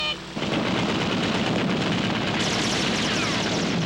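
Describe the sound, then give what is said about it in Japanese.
A heavy burst of gunfire from an anime battle scene starts abruptly and keeps going as a dense, loud barrage for several seconds without a break. “あんなめちゃくちゃ撃たれて大丈夫かいな。”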